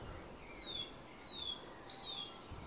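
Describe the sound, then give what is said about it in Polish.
Birds sing faintly: three clear, high whistled notes each slide downward, with short sharper chirps between them. The notes repeat at a steady, unhurried pace over soft background hiss. “widzicie, ptaki śpiewają, że słyszycie, ptaki śpiewają”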